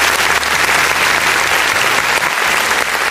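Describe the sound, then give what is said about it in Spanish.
Loud, steady applause from a crowd, a dense unbroken wash of clapping that carries on at an even level from start to finish. “Así que le mandamos desde aquí un tremendo aplauso”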